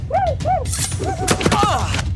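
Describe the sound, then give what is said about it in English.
Gunfire as Blackfoot warriors shoot at the characters in a cartoon: a sudden burst followed by several sharp cracks, mixed with shouting voices. “The Blackfoot are shooting at us! They will kill me!”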